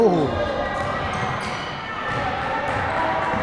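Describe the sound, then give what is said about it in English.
Basketball dribbled down the wing during a game, its repeated bounces heard under background voices. “nice dribbling the ball down the wing.”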